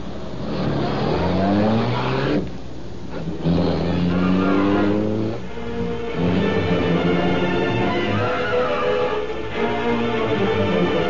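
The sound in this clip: A car engine revs hard as the car drives off and accelerates. Its loud, rising whine resets with each gear shift over several surges, with no talk.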